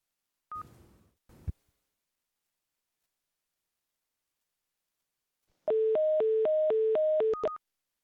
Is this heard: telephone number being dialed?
yes